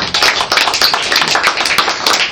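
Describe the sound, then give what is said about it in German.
Audience applause after a performance: dense, steady clapping from many hands, loud and continuous throughout without a break. “Ich bin wirklich dankbar für den Applaus.”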